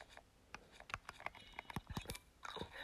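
Crunchy chewing and biting from a video game character eating a crab: a quick series of crisp, clicky bites at a moderate level, with no voices.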